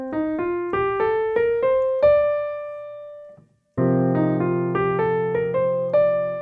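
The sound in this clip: A melodic line built from a shrunk arpeggio spanning a third, C to E flat, and an expanded scale spanning a seventh up to D. Struck, decaying pitched notes climb step by step, pause, then rise again over a sustained low chord.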